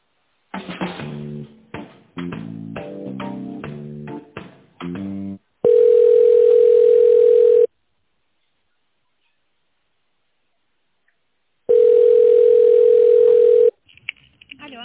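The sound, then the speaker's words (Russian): Telephone ringback tone on a line while a call is transferred: after a choppy burst of mixed electronic tones, two long steady mid-pitched beeps of about two seconds each, separated by roughly four seconds of silence. “Так, ваш менеджер Екатерина, а я вас сейчас на нее переключу.”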